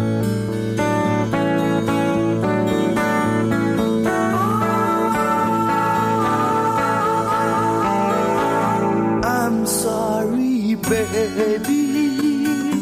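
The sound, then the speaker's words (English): A folky, psychedelic Brazilian song plays continuously at full level, a dense blend of sustained tones and layered instruments with no pauses, shifting briefly in texture near the end. “Just the general tone of the song, I love it. I don't know if it's really purely Brazilian in style or typically Brazilian. It's quite folky and quite psychedelic.”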